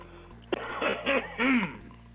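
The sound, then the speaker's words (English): A throat being cleared: a sharp initial burst followed by a few rough, voiced rumbling pushes of air, heard alone over a faint steady low hum. “Pardon as I clear my throat.”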